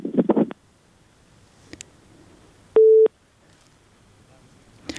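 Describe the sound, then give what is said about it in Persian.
A single short, steady telephone line tone sounds after a caller's line drops. It is loud and clean, with a brief burst of voice near the start and a few faint clicks. “متاسفانه که شنونده ما تماسشان قطع شد.”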